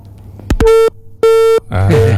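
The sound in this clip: When a phone call drops, a telephone disconnect tone sounds: a couple of clicks followed by two loud, steady, evenly spaced beeps of the same pitch, each lasting about a third of a second.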